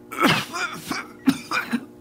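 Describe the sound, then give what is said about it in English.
A woman coughs in a fit: several harsh, throaty bursts, loud and close together, separated by short gaps. “She was caught up in a fit of coughing and could not speak for some time.”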